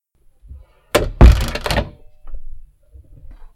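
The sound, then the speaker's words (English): A closet door being shut: a solid wooden thunk with a brief rattling burst, followed by a few faint soft knocks and bumps, alone without talk. “Is the sound of me locking myself in my closet. Well, not locking myself, just shutting myself in my closet.”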